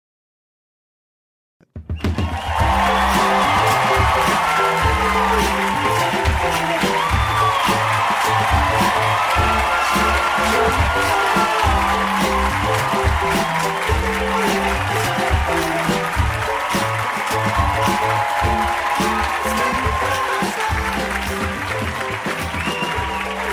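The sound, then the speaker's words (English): A live audience in Milwaukee breaks into loud applause and cheering as a welcome. After a moment of silence, clapping erupts all at once and stays dense and steady, with scattered whoops throughout. “Look at you. What a warm Milwaukee welcome.”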